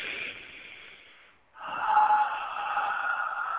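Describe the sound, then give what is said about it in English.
Deep breathing during a guided chakra meditation: a long, airy breath, then a short silent pause and a second, louder and fuller breath, soft and unvoiced with no talk. “Take a big, deep breath with the light coming straight through the top of your head to the bottom of your spine.”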